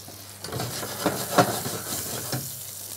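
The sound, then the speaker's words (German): Fish frying in a pan, half cooked: a steady, fairly quiet sizzle with a continuous hiss and a few small crackling spikes. No one talks. “Wenn der so zur Hälfte durchgezogen ist, der Fisch, dann drehe ich den um und mache die Pfanne dann noch aus.”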